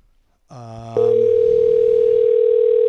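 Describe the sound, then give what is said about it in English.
A telephone sounds a brief buzzy harmonic tone, then switches to a loud, steady, high pure tone that holds unbroken to the end. “I'm going to let this go to voicemail”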